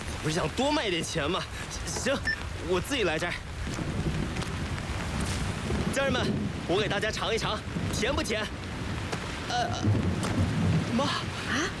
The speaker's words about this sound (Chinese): 虽然今晚下着大雨，但我还是会把柑橘抢收完，再打包送到你们手里的。